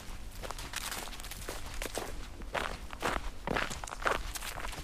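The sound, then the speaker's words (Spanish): Footsteps of someone walking along a trail leaving from a train station, a steady run of many crunching steps at an even walking pace, with no voices. “Ya en el camino, avanzo por este sendero desde la estación de tren Traslaviña hasta Barrietas.”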